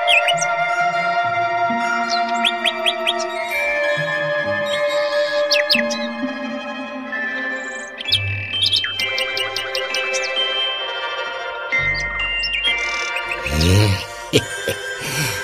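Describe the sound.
A nightingale sings in a forest: loud, varied phrases of bright whistles, rapid clicks and trills, shifting pitch and pattern from one phrase to the next.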